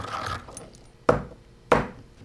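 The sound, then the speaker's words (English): Two sharp knocks of a pestle striking a mortar while dried halibut tissue is ground in a basement lab room, spaced apart and sounding over faint scraping and rustling. “is grinding dried halibut tissue. Her high-tech tool for the job? A mortar and pestle.”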